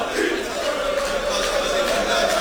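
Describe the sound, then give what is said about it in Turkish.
Football supporters chant in a stadium in Kadıköy, a dense, steady roar of many voices holding a sustained, droning tone without break. “tezahüratlar bir yandan da Kadıköy'de Çobani Stadyumu'nda Sayın Hakan Safi'nin destekçilerinin tezahüratlarını da duyuyoruz”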